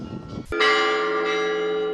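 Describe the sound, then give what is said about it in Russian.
Orthodox church bells in canonical ringing at a village church's 200th jubilee: a single bright strike about halfway in, after low rumbling noise, then a long sustained ringing tone that hums on to the end. “Всех гостей и жителей деревни сопровождал на трапезу канонический звон православной церкви.”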